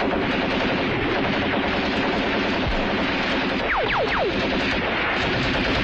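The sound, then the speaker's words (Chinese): Dense, unbroken gunfire during an assault on a drum tower, a loud continuous roar of shots with three short descending whistles cutting through near the end. “突然他被一颗子弹打中。”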